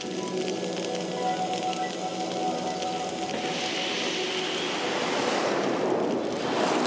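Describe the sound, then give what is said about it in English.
Roaring fire in a steel-smelting furnace, burning at over 1,000 degrees with ventilation channels on either side, makes a loud, steady, broad rushing noise with no breaks that grows brighter and stronger in the latter half. “Master Kihara will listen to the noise of the fire.”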